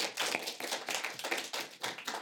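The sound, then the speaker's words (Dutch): Applause greets a guest on stage. The claps are sharp and distinct, coming in a quick, uneven patter at moderate loudness. “Mag een groot applaus voor de hulpverlener Douglas.”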